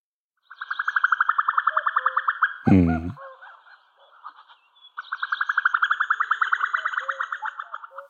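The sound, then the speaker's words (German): Female common cuckoo giving its bubbling call: two long runs of rapid, evenly pulsed notes, separated by a pause with a short low burst, each run loud and steady. “das Blubbern, so den Begriff kenne ich, des Kuckuckweibchens. Das klingt nämlich so ein bisschen ähnlich und ich habe den mal mitgebracht und der ist ja auch ganz gerne im Schilf, weil er da eben seine Rohrsänger und Rohrammern parasitiert. Ich habe den mitgebracht, man hört auch ein Männchen im Hintergrund.”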